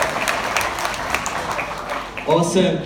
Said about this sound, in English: Hey, let's give it up for the worship team one more time. Absolutely smash it.